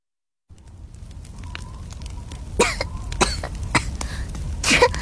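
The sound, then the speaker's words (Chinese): Coughing after choking on a mouthful of wine: a few harsh, raspy coughs break out one after another, rising in loudness toward the end, with no talk. “燕婉嘴里的酒差点喷出去，呛住了，咳了半天”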